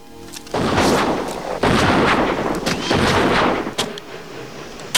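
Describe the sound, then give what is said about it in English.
Rifle fired repeatedly near an aged stone wall among palm trees on sand: four heavy, booming shots, each trailed by a dense, roaring wash of noise. The scene turns noticeably quieter after the last blast. “He passes through a gap in an aged stone wall, holding his rifle at the ready. He sees the shadow of a man with a gun on another wall and fires repeatedly.”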